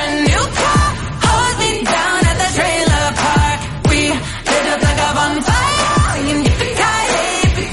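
A pop song with light country touches plays loud and full, driven by a steady thumping beat under dense layered instrumentation throughout.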